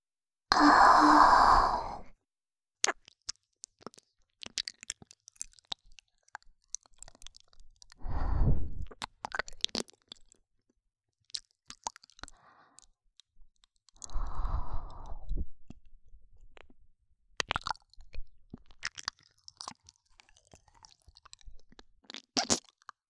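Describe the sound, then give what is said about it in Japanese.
Someone tasting and chewing food, scattered crisp crunches and wet clicks running throughout, broken by three short voiced sighs or hums; no words are spoken. “ちょっと味見しちゃいますね。”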